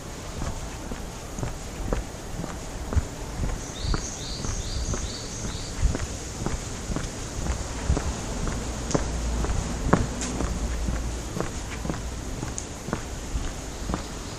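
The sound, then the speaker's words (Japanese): Footsteps walk along a narrow alley behind an elementary school, many regular steps sounding over a constant background hiss, with a brief bird chirp early on. “小学校の裏側に抜ける道を歩いてます。細い路地です。”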